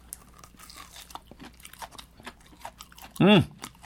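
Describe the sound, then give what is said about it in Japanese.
Crunching and chewing as someone bites into food, with small soft clicks throughout and one louder, brief burst near the end. “かじります。”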